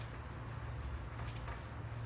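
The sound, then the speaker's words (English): Handwriting gives a faint, continuous dry scratching, with a low steady hum underneath and no distinct pauses between strokes. “So let's take a look. And I'm just going to write some of these down.”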